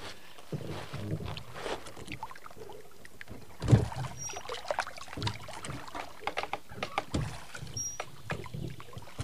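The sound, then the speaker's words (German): A rowboat being rowed on ice-cold water in a wild landscape, with many irregular soft splashes and knocks from the oar strokes and one louder splash partway through, quiet and without speech. “Da, ein Ruderboot. Lassen Sie uns ein wenig Boot fahren.”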